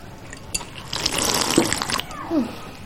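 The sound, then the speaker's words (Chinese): Water running from a tap as hands are washed, with splashing and trickling rising in the middle, a few brief knocks and a short gurgle near the end. “你洗手之后能不能轻点啊，你多少年了都改不过来。”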